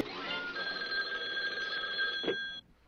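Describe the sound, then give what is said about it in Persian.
A telephone rings in the Flintstone house with a continuous, faint trilling bell that stops abruptly near the end. “منزل فلینستون بفرماییم. خانم فلینستون، یه لحظه گوشی خدمتون.”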